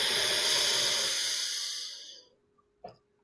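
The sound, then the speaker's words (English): A deep breath drawn in during guided meditation, a soft, airy hiss that slowly fades over about two seconds, then a brief, faint click in the quiet. “Now set the intention, I accept the bliss within me. Inhale.”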